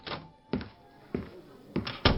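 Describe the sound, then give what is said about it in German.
A door opening into a room, heard as five dull, solid thumps spaced unevenly over about two seconds, each sharp at the onset and quickly fading, with no voices. “In diesem Moment öffnete sich die Tür und ein Arzt betrat das Zimmer.”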